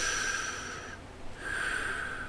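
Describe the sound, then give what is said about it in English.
A deep breath is drawn and released during a Bible lesson: a steady, hissing inhale gives way to a brief lull, then a matching breathy exhale of airy noise, with no talking. “Let's take a deep breath.”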